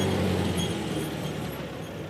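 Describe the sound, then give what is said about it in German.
A two-stroke vehicle drives slowly in first gear between rapeseed fields in Vorpommern, giving a continuous, broad engine drone that stays fairly even and eases slightly toward the end. “Zweitaktdunst zwischen den Rapsfeldern in Vorpommern. Dann im ersten Gang langsam fahren.”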